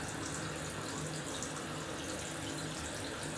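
Shower water falling on two people: a steady, dense rushing hiss of spray that stays even throughout, with no voices.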